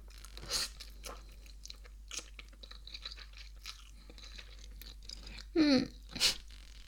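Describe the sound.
Soft chewing of instant noodles: faint crunchy bites and mouth sounds scattered over near-silence, with two louder crunches close together near the end.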